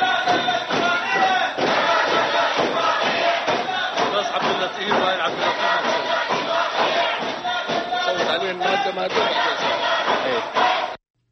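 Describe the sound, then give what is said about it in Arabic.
Opposition MPs chant against an agreement during a parliamentary vote: loud, rhythmic massed voices with scattered thuds, sustained for about eleven seconds before cutting off abruptly. “وردد النواب المعارضون للاتفاقية هتافات ضد إقرارها خلال عملية التصويت.”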